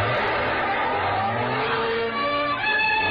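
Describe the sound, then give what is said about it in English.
A car engine revs hard and its tires squeal as the car whips sharply around a corner on two wheels. The loud, strained engine note shifts in pitch throughout, with no talk over it. “I turned the corner on two wheels.”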